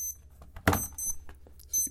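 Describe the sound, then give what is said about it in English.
An alarm goes off with high, thin electronic beeps in short intermittent bursts. A loud burst of noise comes early on. “did not shut off my alarm”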